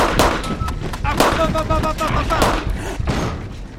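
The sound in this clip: An improvised bomb blowing up, heard as a series of loud, sharp booming blasts with crackling bursts between them and voices mixed in among the detonations.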